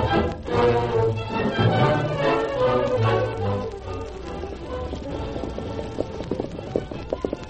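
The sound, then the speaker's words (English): Hooves clip-clop as a group of men ride horses toward a river crossing for a cattle herd. A fairly faint, steady stream of many quick taps continues throughout. “Cy Adams and his men were riding toward the place where Kinsey intended to drive his herd across.”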